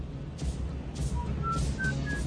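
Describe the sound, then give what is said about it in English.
A man whistles a tune to comfort a frightened boy beside him in a moving car. A few short, faint notes step upward in pitch over a steady low rumble. “Ward comforts the boy by placing his arm around his shoulders and whistling a tune to distract his mind from fear of retribution.”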